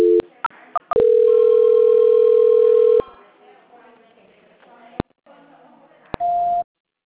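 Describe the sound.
Telephone tones during a call transfer: a few short beeps lead into a long steady tone of about two seconds. Clicks and a faint line hiss follow, and a brief higher tone ends the sequence.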